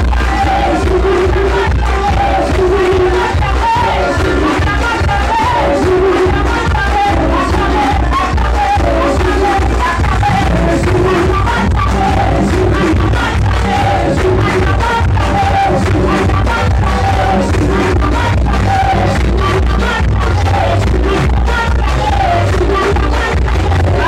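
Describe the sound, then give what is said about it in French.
A crowd at a religious gathering cheers and acclaims loudly, a dense, unbroken roar of shouts and whoops that stays at full strength throughout. “Acclame ta victoire. Acclame ta délivrance. Acclame ta libération. Acclame la restauration de ta famille. Acclame, acclame, acclame, acclame, acclame.”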